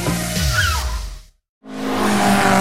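Screeching tyres and a roaring engine from a car in a classic car rally: a sharp squeal with a falling whoosh, a brief moment of total silence, then the engine noise returns loudly.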